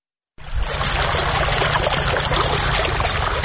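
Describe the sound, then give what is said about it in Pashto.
Water gushes from a deep well in Sayedabad district, Maidan Wardak, raised by farmers with solar panels and machines. A steady, loud rush of water over a low mechanical hum starts abruptly after a brief silence and runs on unbroken. “دا د میدان وردګو ولایت په سید آباد ولسوالۍ کې د جوړو څاګانو اوبه چې بزګران یې د لمریزې هندارو او ماشینونو په مرسته راپورته کوي”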